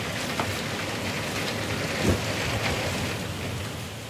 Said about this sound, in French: j'ai jamais vu un si gros orage et de la grêle à ce point-là.